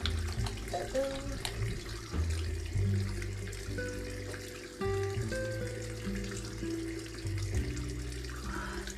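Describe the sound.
Tap water runs steadily into a sink while someone washes their face, a faint, continuous flow with small shifts in tone.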